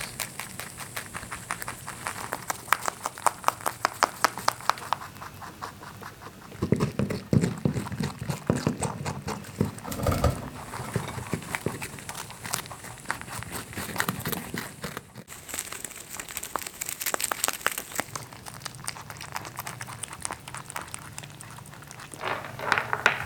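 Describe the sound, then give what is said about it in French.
Two mammals eat hay, grain, carrots and dandelions, making a continuous stream of crunchy, rustling munching that varies in texture from moment to moment, with no talk. “J'assiste à une diversité de textures sonores inédites selon l'aliment dévoré. Des partitions musicales savoureuses.”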